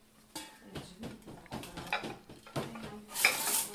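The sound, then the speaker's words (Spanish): A middle-class Gaza family finishes cooking maklouba, a layered pot dish of rice, spices, meat, browned eggplant or cauliflower and nuts. Pots and utensils clink repeatedly, with stirring and a soft sizzle in the kitchen. “Esto que escucháis es una familia de clase media gazatí en su cocina. Están terminando de preparar maklouba, un plato típico palestino que superpone en una olla arroz, especias, carne, berenjenas o coliflor doradas y frutos secos.”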